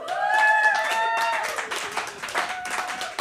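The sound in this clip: A studio audience claps for a radio show host. The brisk applause has a sustained voice or tone over its start and thins into scattered claps toward the end.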